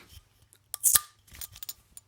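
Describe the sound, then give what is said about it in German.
A bottle of Dithmarscher beer is opened with a short, sharp metallic crack of the cap, then a few faint clinks and snips in an otherwise quiet moment. “Ja, das war tatsächlich eine Bierflasche, die ich mir gerade geöffnet habe.”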